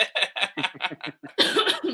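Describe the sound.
A fit of coughing: several short, harsh coughs in quick succession, then a longer, rougher hacking burst at the end.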